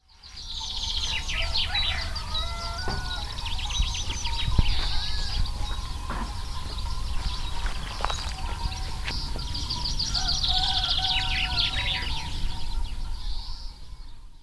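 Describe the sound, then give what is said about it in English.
Goats being herded for milking in a valley in the hills near Malaga on the southern Spanish coast: a steady outdoor wash with sustained ringing tones and many bright bird chirps, continuous and moderately loud. “That was the sound of goats being herded, ready for milking, down in the valley below me.”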